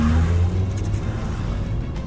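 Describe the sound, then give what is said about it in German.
A car engine revs as the driver steps hard on the gas, giving a sustained, fairly loud low engine roar with a steady drone and no talk over it. “Er gibt noch viel mehr Gas.”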